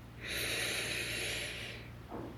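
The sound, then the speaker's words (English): A deep breath is drawn in during a guided breathing exercise: one slow, soft, airy inhalation lasting about one and a half seconds, alone, then a brief faint breath sound. “Take another deep breath in,”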